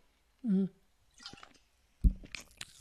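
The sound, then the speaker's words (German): Someone takes a short sip of a drink and swallows it with a brief gulping sound. A few soft clicks and small knocks follow. “Ich muss mal eben einen Schluck trinken.”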